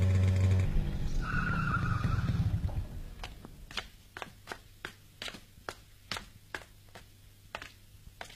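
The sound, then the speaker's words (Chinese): A motorcycle speeds through quiet late-night streets with a loud rushing engine and a squeal of tires, then stops. A steady series of short, sharp ticks follows at an even rhythm. “一辆摩托车飞速地穿过大街小巷，停在田海家的门口”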